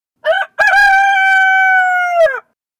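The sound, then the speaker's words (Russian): A rooster crows on a village morning: one loud call with a short opening note, a brief gap, then a long sustained harmonic crow that holds steady before breaking off, heard alone. “Петух, убью. Да что за противное животное, горланит и горланит”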